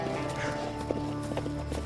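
Horse hooves clip-clop as a short run of soft, evenly spaced beats beneath a steady sustained tonal background.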